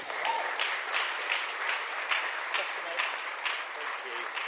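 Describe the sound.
An audience applauds to welcome a speaker named Matt as he comes up to talk. The steady, moderately faint clapping continues throughout with slight swells in intensity.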